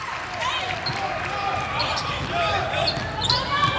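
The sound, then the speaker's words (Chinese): A basketball bounces during a fast-break layup in a game involving the French team, with quick dribbles mixed with high sneaker squeaks over steady crowd noise. “又是一次快攻上篮，”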